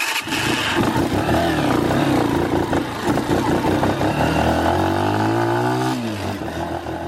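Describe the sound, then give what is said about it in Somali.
A two-wheeled motorcycle engine runs loudly and continuously while travelling, a steady droning rumble whose note climbs near the end, then drops back as the rider eases off. “annagoon ku safray mootada nooc laba lugaleyda ah”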